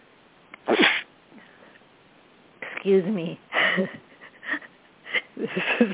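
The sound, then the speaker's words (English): A single sharp, explosive sneeze during spring hay fever, bursting out near the start against near silence, followed by a person talking. “That was a sneeze. I guess hay fever time in the spring.”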